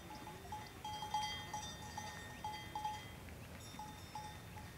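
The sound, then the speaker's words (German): A herd of sheep heading out to the grassland of a high plateau: faint bells tinkle in many small, irregular strikes over soft background noise, with no clear bleats. “Nach dem Einräumen der Vorräte zieht Lorce mit der Herde raus auf das Grasland der Hochebene.”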